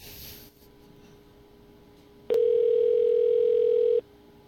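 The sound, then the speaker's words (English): After a number is dialed, a steady telephone ringback tone sounds once for under two seconds, a single unbroken mid-pitched drone over faint line hiss. “And now it rings.”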